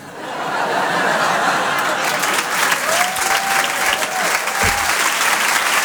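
Audience applause at the Rire et Chanson Comedy Club on the Apollo Théâtre stage in Paris: loud, dense clapping that swells in and holds steady for the whole stretch.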